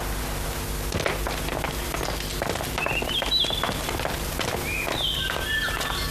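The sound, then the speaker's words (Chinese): Footsteps of sedan chair bearers setting off: many steady footfalls and shuffles at an even, moderate level against constant background noise. “好嘞，伙计们起轿走。”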